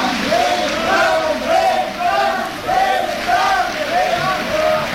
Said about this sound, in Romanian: Auzi, maestre? Așa îl cheamă publicul fiecare seară.